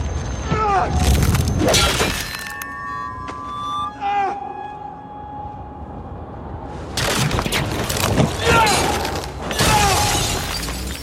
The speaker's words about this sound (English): I'm going to play a clip from a fight with the White Walker War at the end of season 5.